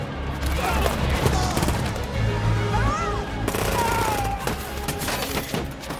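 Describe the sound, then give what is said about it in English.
Gunfire crackles in bursts as bullets fly during a battle between factions. Rapid volleys of shots run steadily through the whole clip, with sharp cracks standing out near the end. “Ducks as bullets fly all around her.”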